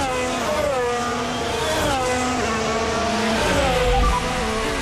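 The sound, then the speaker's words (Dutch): Loud, continuous high-revving Grand Prix race car engine at speed during a practice session at the Italian Grand Prix, reportedly misfiring. Dense harmonic whine with pitch shifting up and down, no voices. “Hey, is everything okay with my engine? I'm super, super slow. Okay, there's nothing wrong.”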